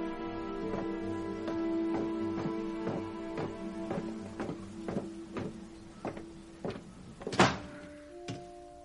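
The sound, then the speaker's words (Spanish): A cabin door is shut with one heavy thud near the end, over steady rhythmic tonal music that pulses throughout. “Una vez dentro se asegura de cerrar bien la puerta y contempla la estancia.”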